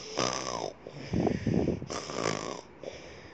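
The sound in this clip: A voice imitating the deep snoring of a sleeping lion: two full snore cycles, each a raspy, higher-pitched breath in followed by a low, rumbling, throaty breath out, fairly loud and alone.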